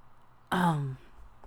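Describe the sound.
A single throat clearing, one short voiced rasp lasting about half a second, heard alone against quiet surroundings.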